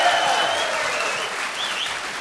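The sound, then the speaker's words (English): Applause from an audience of bowlers: dense, steady clapping that holds at an even loudness throughout, with scattered whoops and whistles rising above it. “Let's have the bowlers applaud now, please. See? Yeah. Listen to that, my friend. Bowlers, always welcome. Listen to that.”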